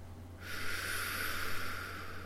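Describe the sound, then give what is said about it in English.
A deep exhale of breath during a guided breathing exercise: a soft, airy hiss that begins after a short pause and continues steadily to the end over a low, constant hum. “Exhale all the air out.”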